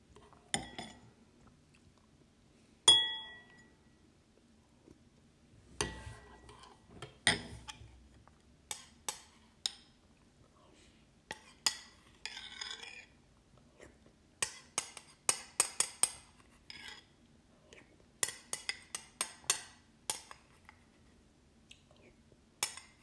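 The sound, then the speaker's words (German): People eating a meal: faint chewing with scattered clinks and taps of cutlery on dishes, irregular and sparse over a long stretch, with clusters of quick clicks and no talk. “Perfekt, ich sehe gerade, wir nehmen schon wieder fünf Minuten nur Essen auf.”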